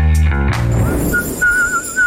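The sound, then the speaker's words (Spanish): Whistling: a thin, high, steady tone follows a brief low tonal sound and is held in short stretches with slight wavering. “Chiflando y aplaudiendo, que ya regresamos.”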